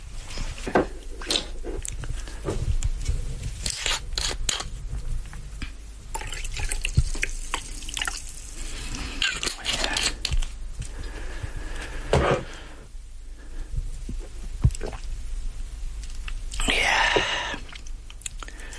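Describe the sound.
Liquid being poured and sipped to rinse the throat in a radio studio, with many small drips, trickles and wet mouth and swallowing noises spread unevenly throughout, and a brief louder splash near the end.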